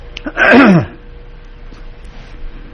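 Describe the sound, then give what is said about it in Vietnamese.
A single cough from a monk giving a Buddhist Dharma talk: one loud, rough burst of under half a second, standing alone against quiet background hiss. “Ví dụ bữa nay tại sao mà sư hay ho vậy?”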